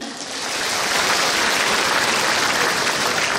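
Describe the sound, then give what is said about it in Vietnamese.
An audience applauds a monk's talk. The dense clapping swells within the first second, then holds loud and steady to the end. “Năm nay hên quá, từ sáng giờ lên được vỗ tay hoài à, có bộ không ai ngủ ha.”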